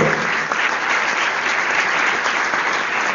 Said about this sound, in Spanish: ¿Dónde está Gustavo Lenz? Un aplauso para Gustavo, diseñador industrial, artista.